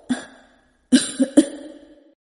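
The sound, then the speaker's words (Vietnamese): An elderly person ill with an epidemic disease coughs: one rough cough, a short pause, then three quick coughs in succession, fairly loud and alone without speech. “Ba dừng lại, ho mấy tiếng, rồi mới nói tiếp.”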